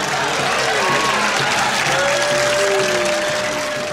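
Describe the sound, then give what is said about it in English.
Applause sound effect played as a cue: dense, even clapping with crowd noise, steady and loud for the full four seconds. “We've got Max, thanks for putting in that applause cue as well.”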